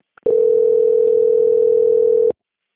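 A steady telephone tone sounds during a call transfer, a single mid-pitched beep held evenly for about two seconds after a brief click, then cutting off cleanly into silence.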